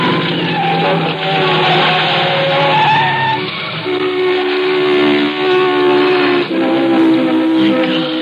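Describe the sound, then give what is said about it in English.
Tires screech as a car swerves and skids after a front tire blowout. The screech is a loud, sustained, tonal squeal that shifts pitch in a few steps and runs unbroken throughout. “The tire blew out. Oh, we're lucky. No one hit us.”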